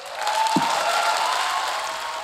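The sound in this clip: Audience applause after a speech: dense, steady clapping that holds at an even level throughout, with one brief low thump near the start.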